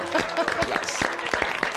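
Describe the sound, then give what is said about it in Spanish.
Applause bursts out as a sound effect during a satirical monologue, a steady wash of clapping at moderate level that runs through the whole short stretch without pause. “No. Aplausos.”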